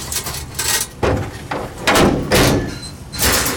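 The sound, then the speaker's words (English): A vehicle tailgate being opened: a quick series of loud metallic clunks and rattles, with several sharp knocks and bangs close together over a few seconds. “open the tailgate, will ya?”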